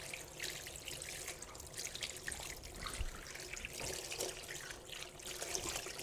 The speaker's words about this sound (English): Do you wash? I saw do wash in your hands. I'm going to do it again to make sure they're really clean. Oh, that's a bit cold.